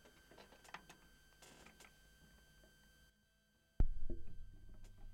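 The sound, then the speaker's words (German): A stylus needle set down on a vinyl record, side 2 at 45 rpm: a sharp thump breaks a brief silence, then a steady low rumble of groove noise carries on. “Wir werden da mal reinhören auf der Seite 2 auf 45 Umdrehungen pro Minute. Ich lege mal die Nadel vorsichtig hin.”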